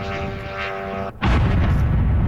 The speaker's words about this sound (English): That is one drone hitting an apartment building in Kyiv.